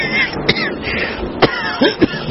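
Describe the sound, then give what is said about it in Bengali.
A few rough, hacking coughs after several puffs on a hookah, short harsh bursts spaced irregularly, with a throaty, strained quality between them. “সহায় হরি হুকোটায় পাঁচ ছটি টান দিয়ে কাশতে কাশতে বললেন”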